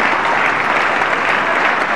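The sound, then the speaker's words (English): Dense audience applause at a Savior's Day gathering: loud, continuous clapping that fills the whole stretch without pauses or standout voices. “Let's give him a big, big, well-deserved round of applause.”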